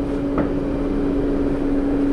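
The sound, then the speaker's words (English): An organ blower hums steadily in a church basement. A huge fan is driven by an antique electric motor from around the 1940s. The drone is loud and unbroken, with a strong steady tone and no voices. “This is the blower, which is a huge fan in that case with an electric motor that itself is an antique, probably dating from the 1940s, which is supplying all the wind to the organ”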